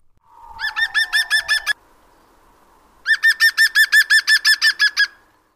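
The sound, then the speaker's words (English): A woodpecker with a bright red rump and red crown gives its loud laughing song: a short run of ringing, evenly spaced yelps, a pause, then a longer run of the same yelping notes, over a thin descending whistle at the start. “Their song is a loud, far-carrying laugh.”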